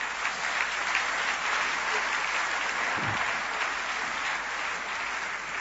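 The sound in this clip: An audience applauds during a church service: steady, dense clapping that holds at an even level throughout, with no talk over it.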